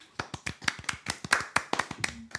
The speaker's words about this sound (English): Hand clap.